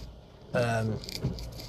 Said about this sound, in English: If you're hearing all that rattling and noises banging and all that, it's because I'm in the car with the hands free on.